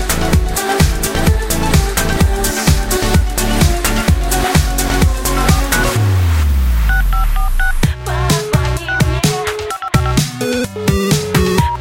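Telephone tones, like electronic dialing beeps, sound inside a song: a run of short, steady, bright beeps over busy rhythmic music that continues loudly throughout.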